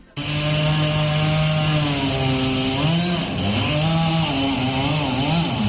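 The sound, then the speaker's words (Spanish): Chainsaws felling trees along an avenue in Ferrol: a loud, continuous buzzing engine drone whose pitch dips and revs back up a few times, with no voices. “son das motosierras que están talando parte das árbores que hai na avenida de Ferrol”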